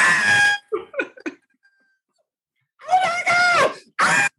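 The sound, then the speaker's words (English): A man's voice imitating a woman screaming during a job interview: loud, strained, high-pitched vocal bursts, a burst and some shorter yelps, a pause, then a few more screams. “And she literally goes,”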